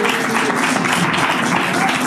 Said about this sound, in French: On applaudit quand même Michel.